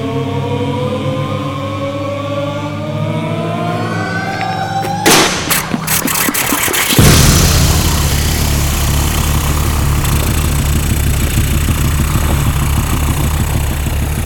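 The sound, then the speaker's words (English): An aircraft propeller engine is wound up by two men and started with a pilot in the cockpit. A burst of coughing, sputtering noise gives way to a loud, steady, low engine drone. “A worker helps a pilot into the cockpit. Two men wind up the engine.”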